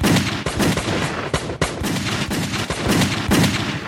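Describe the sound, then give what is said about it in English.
Gunshots fired blindly into a dark basement: about eight sharp, loud reports ring out in a quick irregular burst, each crack trailing into a rumbling echo with a dense roar underneath, and no voices. “They both heard movement and fired randomly into the black basement.”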